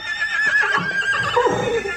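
Horses neigh in a long, shrill whinny whose pitch wavers and drops toward the end. The whinny fills the whole two seconds loudly.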